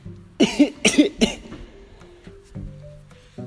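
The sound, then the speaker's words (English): A person coughs three times in quick succession, each cough a loud, sharp burst, during an interview conversation. Quieter low sounds follow. “was that a cough? Yeah, that was like a cough.”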